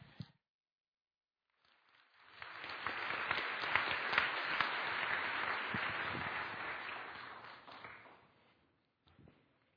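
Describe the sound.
A church audience applauds to welcome two women to the front at a Mother's Day service. The clapping swells in after a short silence, holds at full strength for several seconds, then tapers away to quiet.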